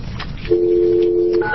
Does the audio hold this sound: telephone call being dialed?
yes